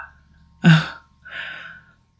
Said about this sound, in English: Hearing myself struggle to breathe because I'm sick